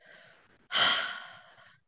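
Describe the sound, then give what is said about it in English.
A deep breath taken alone: a faint breathy stretch, then one loud, long airy rush of breath that slowly fades over about a second. “Now take a deep breath.”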